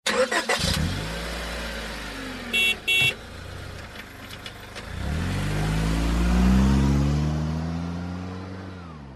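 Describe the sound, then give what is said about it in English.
Car engine revving as the vehicle drives, with a loud burst at the start, a pair of short high tones a few seconds in, then a deep droning engine note whose pitch climbs and swells in the second half. “So this is a vehicle.”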